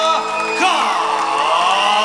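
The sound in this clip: Crowd cheering and whooping at a live cumbia concert in Isidro Casanova, Buenos Aires, greeting the band's singer. The loud, sustained roar of many voices stays steady for the full two seconds, with sharp whoops rising above it.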